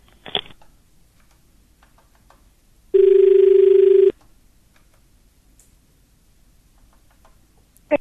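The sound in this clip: A telephone rings once for an incoming listener call on a farm phone-in: one steady electronic ring lasting about a second, loud and alone, with faint clicks before and after it.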